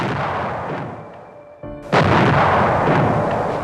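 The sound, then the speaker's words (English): Archival recording of bombs dropping on ships during the attack on Pearl Harbor. A dense, noisy roar thins out, then a short burst leads into a sudden loud blast that continues as heavy, sustained rumbling. “the sounds that you're hearing of the bombing, those are the bombs dropping on the ships.”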